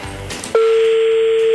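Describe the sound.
A telephone ringing tone on a call: one steady, loud, mid-pitched tone lasting about a second, following a short burst of noise.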